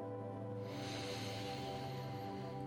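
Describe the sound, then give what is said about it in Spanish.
Slow, deep inhaling breath during a guided meditation: a soft, steady airy hiss that swells in after a moment and is held for about two seconds over a quiet, sustained musical drone. “Quédate ahí un instante y solo respira profundo. Inhala.”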